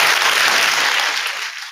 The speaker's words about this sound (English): Gavin Newsom, a big round of applause for him